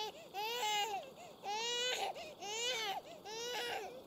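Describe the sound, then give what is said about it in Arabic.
A baby boy who is being weaned cries alone in four drawn-out wailing bouts, with short breaths between them. The crying is fairly faint. “ما بال هذا الصبي لا يكف عن البكاء؟ اتق الله وأحسني إلى صبيك.”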